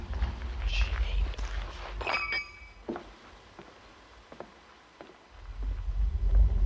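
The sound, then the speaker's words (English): Footsteps walk along a sidewalk, a few scattered, soft steps over a low, rumbling background that swells near the start and end. “You're walking along the sidewalk and then you hear this noise. Walking along the sidewalk.”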